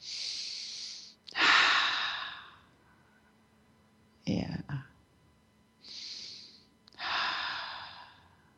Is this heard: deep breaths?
yes